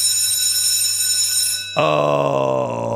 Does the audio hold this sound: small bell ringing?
yes